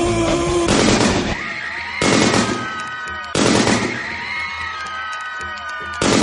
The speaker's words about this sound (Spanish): ¿Por qué siempre disparas cuando no te gusta la música?